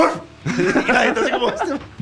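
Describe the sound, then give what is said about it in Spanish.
A person's voice imitates a dog barking, producing a quick run of voiced, bark-like yelps that are loud and fairly continuous. “Les ladro como un perro.”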